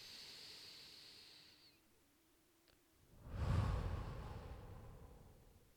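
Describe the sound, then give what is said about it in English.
One deep, slow breath, quiet and airy, swells into a soft rushing sound and gradually fades away, following a faint steady hiss that dies out beforehand. “After that first deep breath, I almost always feel so much more calm. And then I take another.”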